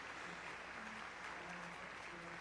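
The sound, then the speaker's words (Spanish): Applause from an orchestra concert audience giving a sustained ovation as the soloists return to the stage: dense, steady clapping that holds at an even loudness throughout. “salen de nuevo al podio por la ovación tan nutrida los solistas.”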